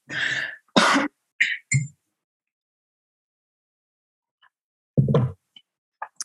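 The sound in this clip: Early-morning throat clearing from a person whose voice is not yet fully awake: a quick cluster of four rough, raspy bursts, then a long silence before one more harsh clearing and a few faint clicks.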